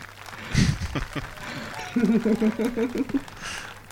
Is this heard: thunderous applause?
yes